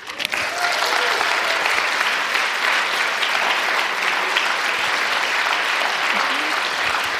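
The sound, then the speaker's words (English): Audience applause fills the room, a dense, steady clapping that holds at an even level for several seconds without a break. “I think you deserve a round of applause for some good questions.”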